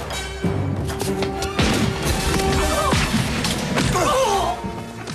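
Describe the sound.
Glasses thrown at someone smash in a loud, dense burst of crashing and shattering. Sharp impacts and breaking sounds sit over a continuous heavy noise bed throughout.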